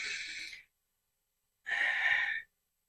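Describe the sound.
Slow, deep breathing in and out during a guided calming exercise: two long, soft, airy breaths separated by about a second of silence, faint and with no talk.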